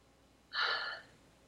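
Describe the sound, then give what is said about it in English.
A single deep inhaled breath during a guided meditation: soft, airy and about half a second long, heard alone over a quiet background. “And take a breath.”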